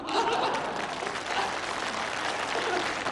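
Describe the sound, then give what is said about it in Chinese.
Sustained audience applause at a crosstalk comedy performance: dense, even clapping that stays loud for the whole stretch. “因为女同胞的掌声比较持久，”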